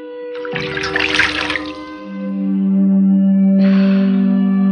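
Water poured from a jug into a basin: a splashing, bubbling pour of about a second and a half, followed by a loud, sustained low tonal drone that swells again near the end.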